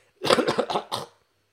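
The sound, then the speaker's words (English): A quick run of several harsh, chesty coughs clearing phlegm from the throat, heard alone and close together over about a second. “Excuse me. Bit of phlegm.”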